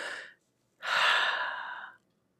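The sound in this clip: A person breathes in audibly: a short, airy breath, a brief pause, then a longer, rushing breath of about a second, with no talking.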